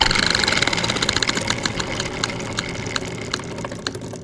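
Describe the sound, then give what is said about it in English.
A spinning prize wheel ticking against its pointer, the crisp clicks spacing out gradually as the wheel slows, set over a continuous rushing, mechanical-sounding background noise. “Bring out the spinning wheel of chance!”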